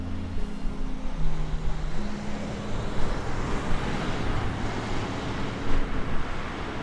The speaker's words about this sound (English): What you're hearing is the sound of cars passing by on Ridge Road in Munster, one of the main thoroughfares of Lake County.